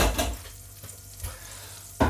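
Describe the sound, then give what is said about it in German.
Oil heating in a pan sizzles with a steady, crackling hiss, and a few sharper pops and bursts rise above it. No voices are heard. “So, das Öl wird jetzt, sollte jetzt gleich heiß werden, ein bisschen grutzeln.”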